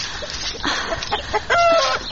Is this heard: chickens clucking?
yes